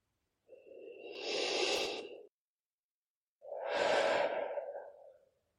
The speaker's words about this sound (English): take three deep breaths. Do it now.